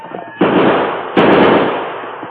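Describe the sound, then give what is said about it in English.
Two gunshots ring out from a single gun during a western chase: two loud, sharp cracks about three-quarters of a second apart, each trailing off in a long, noisy decay. “They only got one gun and just a few bullets. Tell those prospectors to head for the valley, Tonto. I'll try to do that. Get them up, scout! Shoot!”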